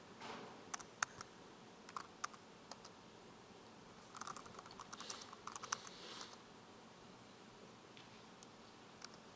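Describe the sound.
Faint keyboard typing: someone enters commands on a computer running Ubuntu on Windows. Scattered light clicks come in a few short bursts, with a denser run of keystrokes in the middle, over a quiet background.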